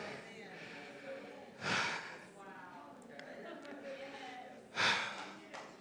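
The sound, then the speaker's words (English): Heavy breathing from an out-of-breath speaker during a sermon: two loud, rushing breaths stand out above a low, steady background murmur. “I'm out of breath. Y'all give me a second.”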